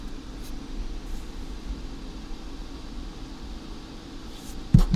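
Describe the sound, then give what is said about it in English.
A computer CPU fan turned all the way up produces a constant whooshing hum over a low drone, unchanging throughout, with a brief knock near the end. “Now I'll turn just the CPU fan all the way up.”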